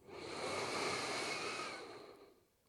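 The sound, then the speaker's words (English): A deep cleansing inhale through the nose during a four-count breathing meditation: one soft, airy rush that swells and fades over about two seconds, quiet and alone. “And together we take a cleansing breath once more. So full inhale in through the nose.”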